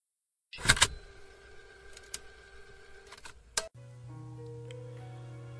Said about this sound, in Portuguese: Coloca a fita e aperta o play.